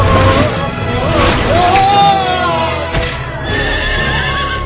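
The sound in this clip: A horse neighs loudly in a series of shrill, wavering whinnies that rise and fall in pitch over a steady background noise.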